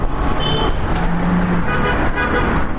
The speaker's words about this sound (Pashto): د لویې لارې موټران هم تیریږي